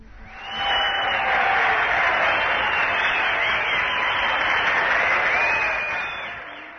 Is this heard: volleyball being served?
no